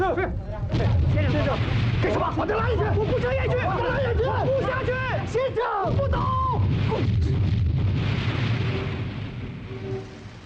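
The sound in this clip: Enemy artillery fire in a dramatized battle at Zhennanguan: a low, rumbling roar runs beneath agitated, shouting voices that dominate the scene throughout.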